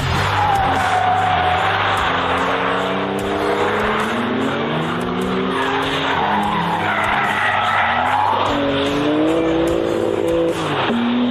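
A sports car is driven hard around a race track, its engine roaring continuously and shifting in pitch while the tires squeal loudly throughout.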